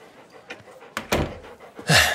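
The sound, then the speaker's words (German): A door being shut, heard as a few sharp knocks and thumps spread over about two seconds, the last one the loudest. “schließen Sie die Tür”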